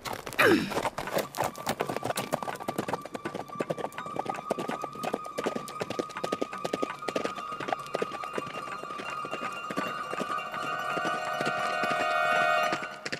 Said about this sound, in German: sie gab ihrem Pferd die Sporen und sprengte die schmale, gefährliche Straße entlang.